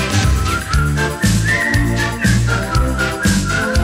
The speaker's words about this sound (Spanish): Silbar es solo aire, costillas al viento. Si sabes silbar, tú silbarás conmigo.